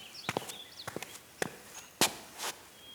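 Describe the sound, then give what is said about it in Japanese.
Footsteps of a person walking closer while carrying a notebook, heard as a series of light, irregular clicks and taps of shoes, with one sharper knock near the end and no talk. “ノートを胸に抱えて何やら真剣に考え事しながら歩いてくる。”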